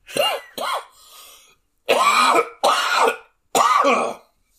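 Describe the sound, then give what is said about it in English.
A person clears their throat and coughs, which others joke is a hairball. It comes as five harsh, voiced bursts in close succession, the later ones louder and longer, with a faint rasp between the first ones. “Hairball. Excuse me. Yeah, I bet it's a hairball.”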